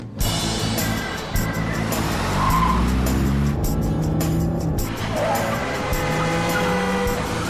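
A wrecked car speeds through city streets with a roaring engine, skidding and squealing tires. The engine tone climbs and sweeps loudly at times amid sharp screeches, and the sound stays loud across the whole stretch.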